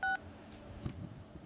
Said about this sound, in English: If you'd like to leave a voicemail for Speaker Paul Ryan, please press 6. Okay, 6.